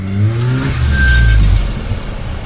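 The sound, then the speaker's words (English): A tired, worn Ferrari V8 engine revs in a loud, continuous low rumble whose tone dips slightly as it runs, with a thin brief whine above it. “The V8 engine was tired underneath that Ferrari's hood. It hadn't ever run so fast in its entire working life.”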